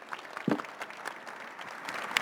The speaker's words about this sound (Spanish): junto con el aplauso de todos ustedes, por favor.